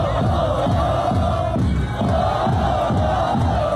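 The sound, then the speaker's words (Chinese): XCMG team supporters chant cheering slogans in unison at the Xuzhou Olympic Sports Center, a loud, steady crowd chant with a repeating rhythmic phrase throughout. “这是来自我们徐工的队伍，他们也正在喊着加油口号，我们把时间给到他们，我们来感受一下如此热烈的氛围。”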